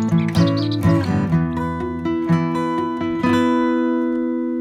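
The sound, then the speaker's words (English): A recorded scrub warbler song is blasted from a speaker to lure migratory birds into mist nets: loud, bright chirps and trills with steady tonal notes, repeating densely without a break. “is his scrub warbler mix blasting out as we try and entice some migratory birds into the mist nets”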